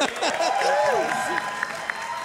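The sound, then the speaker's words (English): Audience applause at a live tabletop role-playing game show: a wash of steady clapping from a crowd, with voices calling out clearly above it. “Would you please give a big round of applause to Dave Harmon?”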